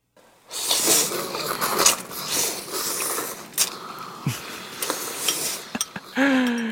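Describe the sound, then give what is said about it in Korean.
Thick naengmyeon cold noodles being eaten, with bursts of slurping and chewing noise mixed with clinks of bowl and utensils and several sharp clicks. “약간 냉면 먹는 소리는 좀 아닌데, 그죠? 좀 굵은 면인데, 이건.”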